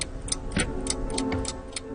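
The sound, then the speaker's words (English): Ticking of a tower-like wooden clock driven by mechanical gears: a steady run of crisp, fairly soft clicks, roughly three per second, over a faint background hum. “I'm standing in front of a tower-like wooden clock. Its mechanical gears control six screens, which surround the clock at the top”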